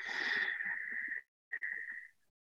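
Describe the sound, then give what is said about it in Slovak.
Breathy exhaling through the mouth during a guided breathing exercise: a long, hissing rush of air that fades out, then after a short pause a second, shorter breath. “A výdych je ústami.”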